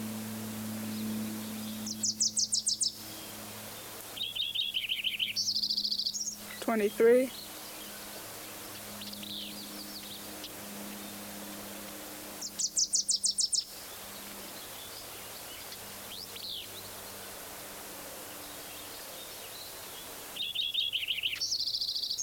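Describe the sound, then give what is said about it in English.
A Wilson's warbler sings in several short bursts of rapid, high chattering notes separated by pauses, while a plane passing overhead adds a steady low drone underneath. “Wilson's warbler at the end, plane overhead.”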